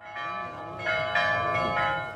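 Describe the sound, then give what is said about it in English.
Village church bells ring out in overlapping metallic tones with long, shimmering harmonics. Fresh strikes swell the steady, moderately loud peal at intervals, with no voices. “Bells ring out from the village church after a deadly shooting spree.”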